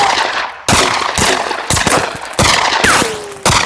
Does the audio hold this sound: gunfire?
yes